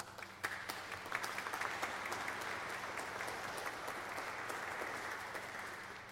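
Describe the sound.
Applause from an audience welcoming a speaker at a Marsh Chapel gathering, a dense, continuous patter of many hands held at an even, fairly soft level throughout.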